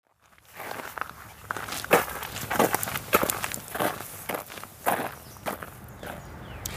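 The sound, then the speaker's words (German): Footsteps walking into the forest near Hittisau in the Nagelfluhkette nature park: many steady crunching steps on the ground, fairly quiet, with no talk. “Aber wir gehen jetzt so richtig rein, oder? Wir gehen jetzt einfach in den Wald.”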